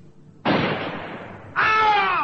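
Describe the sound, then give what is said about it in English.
A rifle is fired from the top of a sand dune, giving one loud shot with a sharp onset and a long, decaying rush of noise. About a second later, a harsher burst with a whining tone follows. “Hearing the shot, Jill stopped still in her tracks and looked back”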